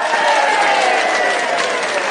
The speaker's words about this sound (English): Hey, Alex, can we get an applause cue?